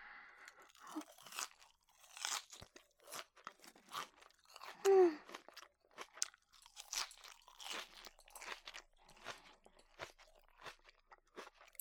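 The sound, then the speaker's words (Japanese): Crunchy salad being eaten: many crisp, irregular crunches of chewing come in quick bursts, loud and dry, with no talk. “それじゃあいただきます。まずはサラダから。”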